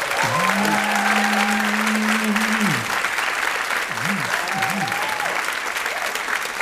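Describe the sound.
A live audience applauds steadily at a stage show, a thick, even roar of clapping that continues at constant loudness for the whole stretch.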